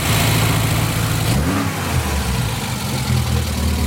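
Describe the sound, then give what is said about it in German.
Engine of a 1964 Volvo P1800 coupé running with a rough, steady note. It revs up briefly and drops back, then settles into a low drone. “Allerdings in einem noch älteren Auto, in einem Volvo P1800 Coupé Baujahr 64.”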